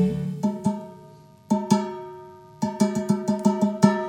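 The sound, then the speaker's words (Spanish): A cooking pot is struck like an instrument in a children's song. Its bright, ringing metallic tones sound as two pairs of hits, then a quick run of many strikes, each tone ringing on briefly. “Nuestra cacerola suena así.”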